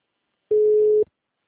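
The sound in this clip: A telephone line tone plays while a call waits to start ringing: one steady, flat, mid-pitched beep of about half a second, heard alone.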